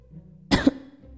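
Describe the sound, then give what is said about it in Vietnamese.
A woman gives a dry, harsh cough in one short burst, then the start of a second. It is moderately loud and stands alone without talk. “Kỷ Vân Hòa ho khan một tiếng.”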